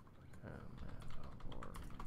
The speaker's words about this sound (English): So I type in Warwick Davis in Mandalorian.